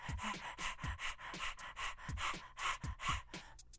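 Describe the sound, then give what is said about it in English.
A human voice imitates a dog panting, producing many quick, rhythmic huffing breaths at a steady pace and moderate loudness, with no words. “And then Irving Brown Sox walks into the room and starts breathing because that's what dogs do sometimes. He was all like,”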